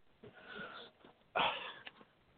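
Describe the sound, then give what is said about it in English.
Breathing from a silent caller on a sports radio call-in phone line, thin and band-limited, with a couple of soft, airy breaths and a faint sniff-like catch, no talking. “Are you with us? Heard you breathe, but you're not talking.”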